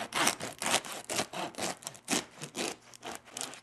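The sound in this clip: A bread knife saws through a golden, crusty round peasant-style loaf, producing a steady series of about eight rasping, crackly strokes in an even back-and-forth rhythm, with no voices.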